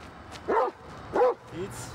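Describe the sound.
A giant schnauzer guard dog, trained for guard duty, barks during a protection exercise: two sharp, deep barks and then a weaker third.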